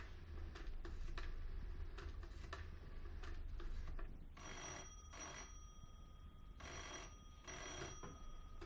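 An old telephone is dialed and rings after a call goes dead: a run of quick mechanical clicks, then two double bursts of loud, bright electronic-sounding bell ringing separated by a short pause.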